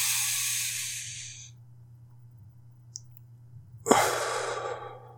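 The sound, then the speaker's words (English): Breathing in through the nose and out through the mouth: two long, airy breaths, the first fading out after about a second and a half, the second starting sharply after a pause. A faint steady hum runs underneath, with no talk. “now that was me breathing in through my nose and out through my mouth.”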